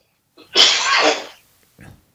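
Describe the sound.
One loud, forceful sneeze from a man, with a short breath just before it and a faint noise right after, and no talk around it.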